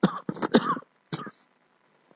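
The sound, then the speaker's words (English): Coughing from a person: a quick run of three dry coughs, then a single cough after a short pause, at moderate loudness with no talk over it. “Don't worry, I'm very well, just a little bit cough, alhamdulillah.”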